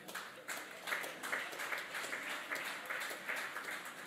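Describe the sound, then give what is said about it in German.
Restrained applause from an audience: soft, steady clapping that runs through the whole clip at a moderate level, with no voices over it. “Verhaltener Applaus.”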